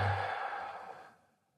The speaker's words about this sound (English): Breathe up and out into hands. And then let that go.